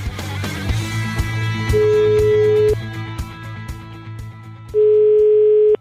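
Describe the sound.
A telephone dial tone plays as a call is placed. A steady mid-pitched tone stops and starts over a low, busy background, then ends in a loud, sustained tone.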